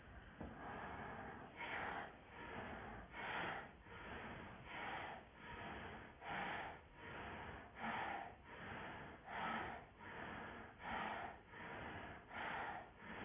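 Bhastrika bellows breathing during yoga practice: many quiet, forceful, even breaths in and out through the nose at a steady, regular pace.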